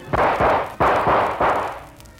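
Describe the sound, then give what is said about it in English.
A gun fires five booming blasts in quick, slightly uneven succession until it is emptied. Each blast is loud and broad with a short rumbling tail, and the last fades away. No voices are heard. “You missed me, Joker. Now your gun is empty.”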